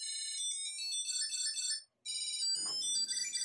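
Electronic ringtone from a Tile key finder tracker tag: bright, high-pitched melodic beeping phrases played at a steady level, stopping for a brief moment of silence before the chirpy tune resumes.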